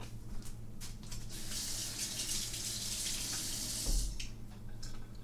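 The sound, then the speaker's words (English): Tap water runs steadily while hands are washed at a sink, a continuous soft hiss and splash of flowing water that holds at a fairly quiet, even level for the whole stretch. “And I'm going to wash my hands.”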